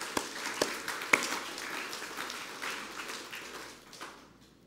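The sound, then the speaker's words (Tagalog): Congregation applauding during a church service, a fairly faint wash of clapping with a few sharper claps standing out early before it thins away toward the end. “Come on, palakpakan po natin yung Panginoon.”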